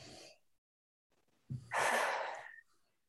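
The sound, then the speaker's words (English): A deep breath drawn in during a guided group body exercise: one long, airy inhale lasting about a second, heard alone without talk. “And then everyone take a nice breath in.”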